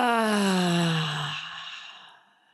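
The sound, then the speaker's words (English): A loud voiced exhale during a guided breathing exercise: one long sigh whose pitch glides steadily downward as it fades out over about two and a half seconds. “Exhale it out with sound. 1 more and this time let's be loud. Inhale.”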